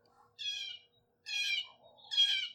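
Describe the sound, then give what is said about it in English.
Blue jay calling near a bird feeder, giving three harsh, nasal squawks of similar length, evenly spaced and fairly loud against a quiet background. “Some blue jays, possibly one will come down to the feeder. I wonder if that blue jay's talking about me.”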